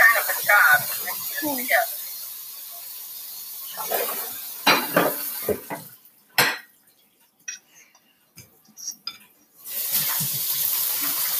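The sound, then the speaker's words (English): Chocolate chip cookie dough being mixed by hand as dry and wet ingredients are combined in a bowl, with irregular bursts of scraping and knocking separated by pauses while people talk. “Yep, I need help mixing this because it's a little hard to get it all mixed up. It takes a little muscle.”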